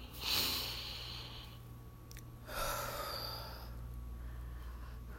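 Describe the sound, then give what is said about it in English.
Deep breathing, with two breathy rushes of air a couple of seconds apart and the first the sharper, over a steady low hum with no talking. “Let me take a breath.”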